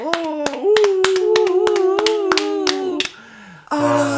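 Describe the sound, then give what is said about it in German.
Hands clapping in applause as a song ends: many quick, sharp claps in a steady run with a voice sounding over them. The clapping stops briefly before a brighter, louder sound cuts in at the end. “Und dann ist das Lied zu Ende. Und du hörst den Applaus.”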